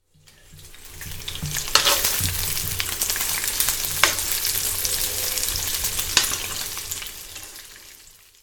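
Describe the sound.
Beef bacon frying in a skillet gives a steady, dense sizzling hiss that fades in and out, with a few sharp pops standing out above it.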